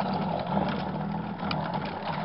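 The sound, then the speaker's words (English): Electric drink mixer running in a bar: a continuous buzzing, grinding whir that stays at an even loudness for about two seconds, with no talk. “Gotta mix it. Oh, that's a horrible machine to have in a bar. Some poor guy's liable to end up with shell shock.”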